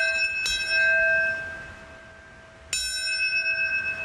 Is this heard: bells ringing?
yes